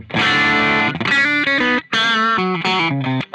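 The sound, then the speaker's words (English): Distorted electric guitar tone from a 2023 Squier Paranormal with its out-of-phase pickup switch engaged, a ringing chord followed by a run of short picked notes and brief gaps. “Yeah, sounds out of phase. For that Queen sort of sound.”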